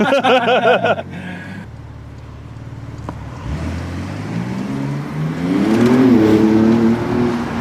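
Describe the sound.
Turbo S sports car driving: the engine drone builds and climbs in pitch as the car accelerates, with loud rushing road and wind noise.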